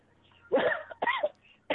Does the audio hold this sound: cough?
yes